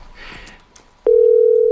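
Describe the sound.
A ringing tone sounds on an outgoing phone call that goes unanswered: a loud, steady pure tone starts abruptly after faint background noise and holds level.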